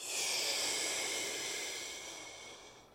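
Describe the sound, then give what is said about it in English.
A deep inhale during a guided breathing exercise, heard as one long airy hiss with no talking. It is strongest at the start and gradually fades over a few seconds. “Take an inhale back in.”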